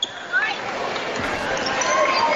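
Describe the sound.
A basketball is dribbled during a girls' high school game, with a few dull bounces half-buried under steady crowd noise and talk.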